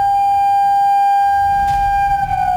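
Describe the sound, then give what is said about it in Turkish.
Civil defense sirens sounding an emergency tone across Çanakkale during an alarm system test: a loud, steady wail holding one pitch with strong overtones, continuous for the whole clip. “İl genelindeki sirenler aynı anda acil durum tonunda çaldı. Ardından sesli uyarı anonsları yapıldı. Çanakkale'de sokaklar bu siren sesleriyle yankılandı.”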